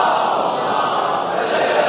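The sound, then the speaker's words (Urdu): A crowd at a religious gathering chants the salawat in unison. Many voices merge into a loud, sustained roar. “ماشاء اللہ, ایسے خشک میدان میں جب یہ نعرہ لگتا ہے میرا دل بڑا بڑھ جاتا ہے. ایک بار اور صلوات بھیج دیجیے محمد آل محمد.”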